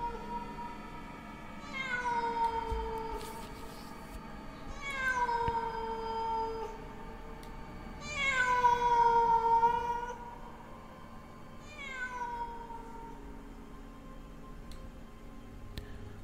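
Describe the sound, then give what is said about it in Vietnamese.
A stray cat meowing at night: four long, wavering meows spaced a few seconds apart, each sliding down in pitch, over a quiet background. “Đâu đây có tiếng con mèo hoang đi qua đi lại ở trong đêm, kêu lên văng vẳng, rợn người lắm.”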